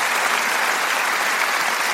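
Audience applause fills the whole stretch, a dense, steady wash of clapping from a large crowd, loud and even throughout with no voices over it.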